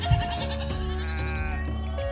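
A goat bleats in one long, wavering, nasal cry that holds steady at a moderate loudness for about two seconds.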